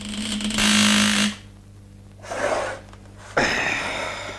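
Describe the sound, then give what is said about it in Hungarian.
Jet nozzles starting up in a blast of rushing, hissing air, heard as three bursts: a long loud one with a low hum beneath it, a shorter softer one, then an abrupt final surge. “Tessék odébb állni, mert indítom a fúvókákat.”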